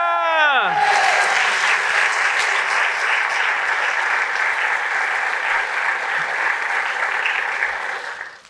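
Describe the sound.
An audience applauding a guest: a brief voice at the start, then a dense, loud clatter of clapping that holds steady for several seconds before fading out at the end.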